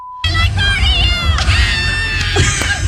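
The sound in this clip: A concert crowd screams at the iHeartRadio Music Festival, a loud, continuous, high-pitched mass of shrieks and cheering that holds steady without a break.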